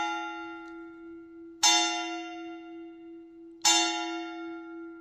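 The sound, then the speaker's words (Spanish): Church bell tolling, two clear strikes about two seconds apart, each a bright, loud attack that fades into a long humming ring, with the decaying tone of an earlier strike at the start. “Estoy recogiendo el sonido de las campanadas.”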